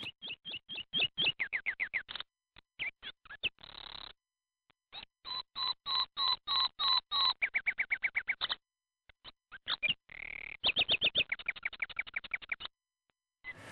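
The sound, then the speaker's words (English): A nightingale sings in high, rapid phrases of repeated chirps and whistled notes. The phrases are broken by short pauses and change in rhythm from one to the next. “We don't have nightingales in this country, but the nightingale song sounds like this.”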